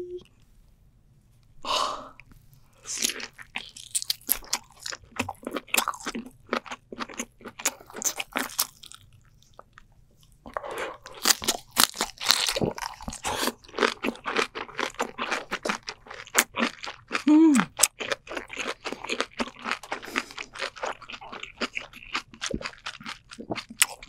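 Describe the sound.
Wet chewing and crunching of giant king lobster meat from a 7.5 kg lobster, eaten close up: many sharp clicks and smacks in a busy, irregular rhythm, with brief quiet pauses between bites.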